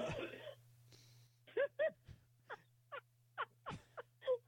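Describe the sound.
A man coughing heavily: many short, harsh, throaty bursts in an uneven rapid string, some with a raspy voiced edge, standing out loudly against a quiet background.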